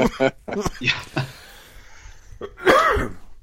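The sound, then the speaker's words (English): A few short, harsh coughs from a person with a persistent cough blamed on mold, heard as sharp separate bursts, followed by a longer voiced exhaling sound. “Yeah, but this cough... Sounds miserable. It's this cough.”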